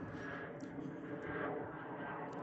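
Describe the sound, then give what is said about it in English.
A low-flying aircraft passes overhead beneath cloud cover, a faint, steady engine drone with a broad roar running throughout. “He's a bit low. We got some cloud cover here. I'll just wait till he goes by. There's no need to. Love aircraft. Fascinated by aircraft.”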